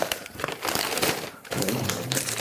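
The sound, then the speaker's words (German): Heavy plastic foil around a gift crinkles and crackles as it is unwrapped, in a series of irregular, loud rustling bursts with a short lull in the middle. “Ich hoffe, man kriegt es sogar leicht auf. Am besten schneide ich es mal weg, ne? Also für die Hörer, die es nicht sehen können, jetzt ist es nochmal in schwerer Folie eingepackt.”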